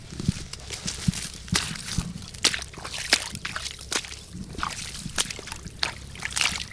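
Footsteps in thigh-high waders sloshing through a boggy, waterlogged field where each step sinks deep; many irregular wet splashes and squelches with short pauses between steps.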